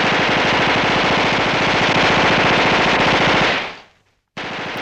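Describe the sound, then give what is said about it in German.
Loud, sustained World War I machine gun fire: a rapid, even rattle of shots that runs for several seconds, then fades out to a brief silence before another burst starts abruptly. “Und es gab tatsächlich im Ersten Weltkrieg schon Maschinengewehre. Die waren für den Gegner sehr gefährlich, weil man mit Maschinengewehren in sehr kurzer Zeit sehr viele Kugeln abschießen konnte.”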